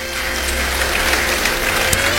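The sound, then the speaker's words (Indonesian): Audience applause in a church service, given after the preacher calls for it: a steady, even wash of clapping at moderate loudness that holds for the whole two seconds. “Yang percaya beri tepuk tangan bagi dia.”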